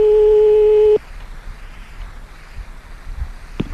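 A telephone line on a redial of the same number: a steady, loud electronic tone holds for about a second, then cuts off to faint line hiss, with a brief click near the end.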